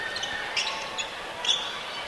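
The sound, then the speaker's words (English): A basketball hits the gym floor after a missed three-pointer in a Kentucky high school game between North Oldham and DeSales. A few bounces sound over steady crowd noise, with sharp sneaker squeaks. “A deep three. In and out by Roush. Ball hits the ground. Picked up by North Oldham.”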